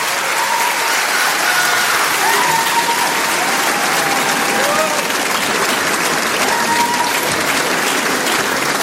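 Loud, dense applause from a concert audience at the Trianon, a steady wash of clapping that runs unbroken from start to finish.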